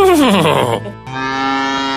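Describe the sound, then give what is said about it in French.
A cow moos: a loud, drawn-out low with pitch sliding downward, then a brief break followed by a steadier, sustained lowing tone. “La vache, j'ai aucune idée. Elle beugle.”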